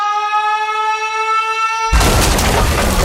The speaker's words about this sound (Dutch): De caloriebom is ontploft.